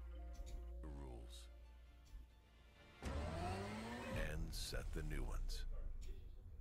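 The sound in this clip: A car engine revs in a driving video being played back. There is talk and quieter sound at first, then a burst of engine noise whose pitch sweeps up and down with the revving.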